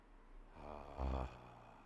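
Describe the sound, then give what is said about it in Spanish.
A deep breath drawn in on a vocal coach's instruction, as if to sustain a long sung note; a soft, airy intake that swells to a brief stronger peak before easing off. “Respira profundo. Así es, como si fueras a cantar una nota muy larga. Respira, mete mucho aire.”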